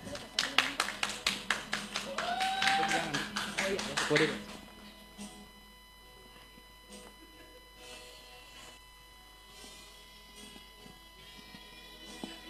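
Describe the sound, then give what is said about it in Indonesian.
Applause from a group: sharp claps in a fast, steady rhythm that grow louder for about four seconds, then stop abruptly, leaving a quiet background. “Kita berikan aplaus dulu deh ya.”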